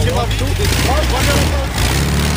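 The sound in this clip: A passing vehicle's engine gives off a low, steady rumble at a vintage motorcycle gathering, near a WSK 125 motorcycle carried on a trailer. Voice-like tones sit over the continuous drone.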